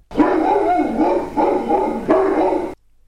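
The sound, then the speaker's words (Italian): A dog barks facing a river, giving a few loud, rough bursts of barking in quick succession with nothing else around them. “Il cane abbaiava con la testa volta al fiume,”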